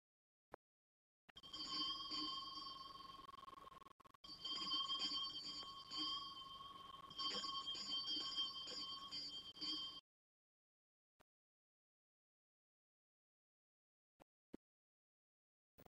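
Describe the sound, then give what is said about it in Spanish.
A small pull-bell at the entrance door of a dark, deserted secondary-school building at night rings in three sustained, bright jangling bursts, followed by a few faint clicks in the quiet afterward. “Se acerca a la puerta y llama tirando de la campanilla.”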